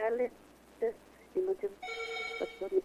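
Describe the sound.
A telephone rings with an incoming call, a sustained electronic ring tone of stacked bright tones between short bursts of people talking.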